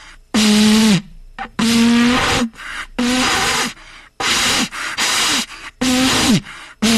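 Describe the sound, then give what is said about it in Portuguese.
Someone blows into a World Cup vuvuzela, producing repeated breathy bursts of rushing air, each carrying only a weak, low buzzing tone that sputters and sags at the end rather than a full blast. “e eu tenho aqui a Vuvuzela da Copa, peraí, deixa eu tocar a Vuvuzela, só um minuto.”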